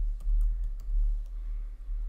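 Clicking at a computer while opening a website link: a few soft, sharp clicks scattered over a low steady hum, faint and without talk.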